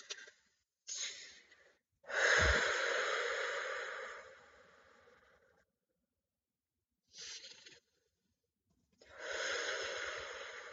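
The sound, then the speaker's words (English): Slow, deep breaths during a guided meditation, soft and airy: a few breaths, one drawn out for several seconds, separated by quiet pauses, with no speech. “Taking a couple more deep grounding breaths.”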